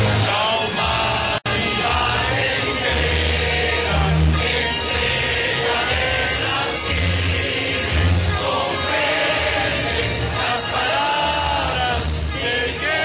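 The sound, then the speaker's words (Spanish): A crowd of 13,000 to 15,000 people sings the Colombian national anthem together in the Plaza de Bolívar at night. The dense wash of massed voices is sustained and loud, with one sharp click near the start. “Ese fue el sonido de las entre 13.000 y 15.000 voces que se juntaron en la Plaza de Bolívar a las 7:24 de la noche para cantar el himno de Colombia.”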